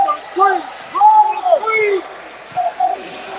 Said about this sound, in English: the right corner, just dribbling back and forth